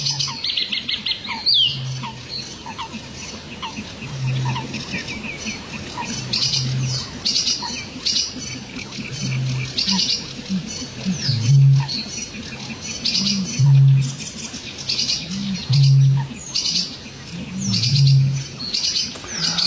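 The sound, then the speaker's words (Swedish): A sedge warbler sings a busy, scratchy chatter of rapid high phrases, broken by short pauses, while a deep, soft hooting pulse repeats at regular intervals underneath and grows slightly louder toward the end. “Den är inte så olik den här sävsångaren som vi hör nu.”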